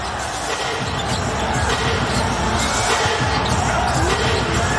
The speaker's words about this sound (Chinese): 看我能不能投一个三分。